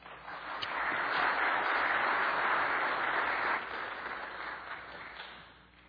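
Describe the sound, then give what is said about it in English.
Audience applause greets a speaker as he is welcomed to the stage. Dense, steady clapping builds quickly, holds strong for several seconds, then gradually thins and fades toward the end. “So would you please give a warm welcome to Dr. Robert Godfrey.”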